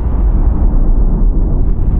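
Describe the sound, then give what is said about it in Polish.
Deep, continuous rumble of German artillery shelling Polish defenders at Modlin through the night in September 1939. It stays loud and unbroken, with no separate blasts standing out. “Przez całą noc artyleria niemiecka nie dawała spokoju polskim obrońcom Modlina.”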